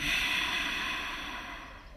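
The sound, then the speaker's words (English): A single long exhale during a guided yoga breathing exercise: a soft, breathy hiss that slowly fades away over about two seconds. “Let's breathe together. Exhale first.”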